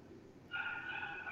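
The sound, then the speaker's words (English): Angry dog in the horror film The Cabin in the Woods gives a single drawn-out, high-pitched, tonal cry that starts abruptly partway through and holds steady; it is quiet overall. “Oh, the angry dog. Angry dog does not like the cabin in the woods.”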